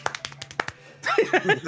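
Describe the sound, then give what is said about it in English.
Hands clap in a quick, sharp flurry of several claps in under a second, followed by someone talking. “This is me clapping really fast.”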